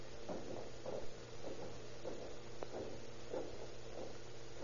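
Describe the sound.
Footsteps climb the stairs of a house during a search, a faint, evenly paced series of many soft thuds over a low steady hum.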